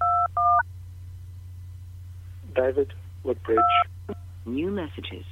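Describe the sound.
Telephone keypad tones punch in a voicemail password: two short, clear tone pairs at the start and a third a few seconds later, set between phrases of an automated voice prompt over a steady low hum.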